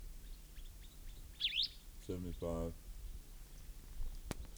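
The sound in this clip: A single short, faint chirp, a quick sweeping note from a recorded bird call, is followed by brief voice sounds and a sharp click near the end.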